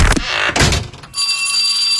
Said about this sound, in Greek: Και τώρα που χτύπησε το πρώτο κουδούνι, το βιβλιοπωλείο Χάρτινο